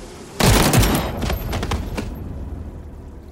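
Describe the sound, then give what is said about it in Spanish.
A firing squad's rifle volley at an execution: one sudden, loud blast of simultaneous shots, followed by a few sharper trailing cracks that fade into a decaying rumble. “¡Disparen!”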